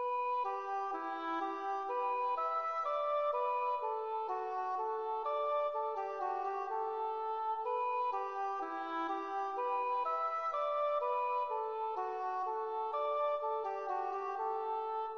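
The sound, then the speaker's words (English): An English horn melody played back from MIDI notation software: a slow phrase of sustained, reedy notes that step up and down at a steady level, with no other sounds. “The English horn sounds like this.”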